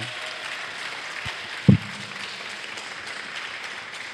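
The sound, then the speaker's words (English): Audience applause for the sound-desk technician at a morning event: steady, fairly faint clapping that continues throughout, with one brief louder knock partway through. “So can we give Neil a round of applause?”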